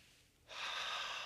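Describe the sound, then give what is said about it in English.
A single deep inhaled breath, a loud, steady rush of air that starts abruptly partway through and holds to the end, heard alone without talk. “Deep breath.”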